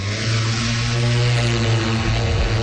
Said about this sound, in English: Collecting, so ready for takeoff.